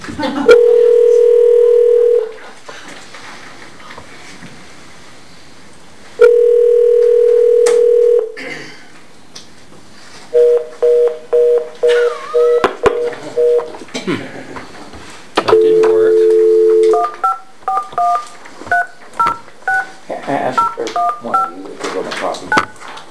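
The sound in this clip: A telephone dial tone and touch-tone number dialing: steady dial tones alternate with runs of short electronic keypad beeps, ending in a long burst of rapid dialing tones, all fairly loud.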